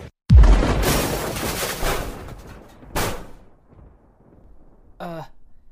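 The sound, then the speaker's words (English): A missile explosion hits as a sudden, loud boom with a rumbling tail that fades over a couple of seconds, followed by a weaker second burst. “Oh man, is that a missile?”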